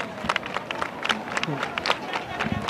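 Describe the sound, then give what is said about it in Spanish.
Crowd clapping at the Virgen del Rocío procession near Villamanrique: scattered, uneven handclaps mixed with crowd chatter and murmuring voices, moderately loud. “y escuchamos esas palmas.”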